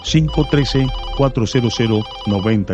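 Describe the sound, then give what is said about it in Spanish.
An incoming call on a call-in line signals with a bright, melodic electronic tone pattern, repeating short stepped notes in several quick bursts, loud and steady throughout. “Ya tengo una nueva comunicación. Esta llamada es de Covington. Vamos a agarrar esta llamada.”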